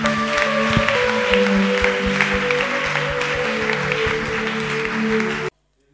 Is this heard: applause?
yes

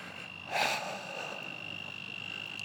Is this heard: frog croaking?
yes

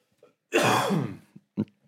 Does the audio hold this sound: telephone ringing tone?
no

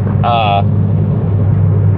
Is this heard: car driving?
yes

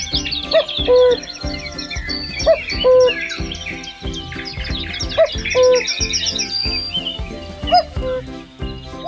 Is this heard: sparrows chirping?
yes

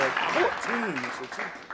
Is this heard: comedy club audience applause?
yes

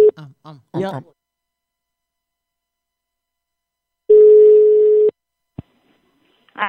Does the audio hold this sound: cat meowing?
no

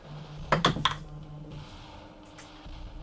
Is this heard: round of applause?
no

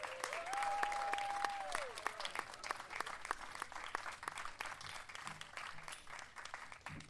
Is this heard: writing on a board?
no

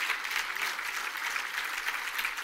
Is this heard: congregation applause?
yes

